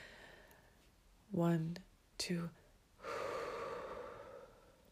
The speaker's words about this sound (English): For example, if I go inhale,